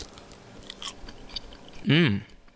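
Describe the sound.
Soft, quiet chewing of a bite of steamed bao whose skin is made with pumpkin and banana, ending in a brief hummed vocal sound.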